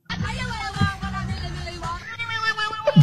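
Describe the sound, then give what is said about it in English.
A cat makes strange, wavering meows and wails while a recording of a girl singing a pop song plays, its drawn-out, sliding cries weaving through the music at moderate loudness before a sharper yowl at the end. “I don't know what makes a cat make that noise. That's the bit that worries me. Because it's not a normal cat reaction.”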